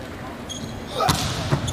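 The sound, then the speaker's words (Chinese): A hard-struck volleyball jump serve that scores directly: one sharp, loud ball strike, then a couple of duller thuds over a steady background din. “好发球，王斌的直线大力跳发直接得分，中国队拉开比分14-11。”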